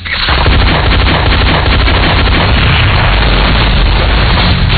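Explosion sound effect: a dense, loud roar of booming blasts that fills the whole stretch at a steady level, heavy in low rumble, with no voices.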